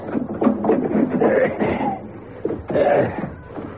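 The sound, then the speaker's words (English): A skylight being pushed open gives a creaking, grinding strain in two loud surges with a short pause between them, rough and mechanical, with no talk over it. “Now, help me push open the skylight, will you?”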